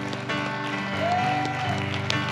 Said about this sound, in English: Somebody clap your hands like he's a miracle worker.